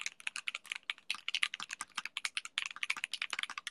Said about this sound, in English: It's clacky, I like it. I love the sound of the space bar.